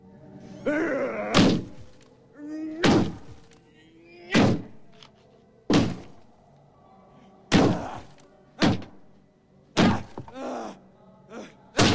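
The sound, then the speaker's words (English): Heavy thuds from a man punching a hole in a wall: a series of hard, separate blows at an uneven pace. Each one is a sharp, full-bodied thump that dies away quickly. “The man finally succeeds in punching a hole in the wall.”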